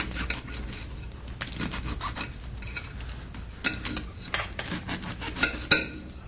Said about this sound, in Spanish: pica un poquitito de lechuga y la ponemos acá. Perfecto. La pica finita.